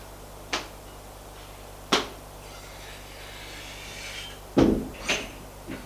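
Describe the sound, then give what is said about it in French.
Door being opened off a corridor, heard as a few sharp clicks and knocks of latch and panel separated by quiet hiss, with a louder thud near the end. “ouvrent une porte,”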